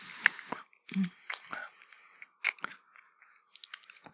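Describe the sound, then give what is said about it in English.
Someone chews a treat, giving many irregular crisp crunches and moist mouth clicks, with short quiet gaps between bites and no talking. “as for me, I just enjoy my little treat. Such a sensory delight, really.”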